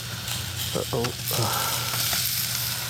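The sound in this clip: Food fries over campfire coals while camping at Earl Rowe Provincial Park, giving a steady, bright sizzling hiss throughout. A voice briefly sounds underneath.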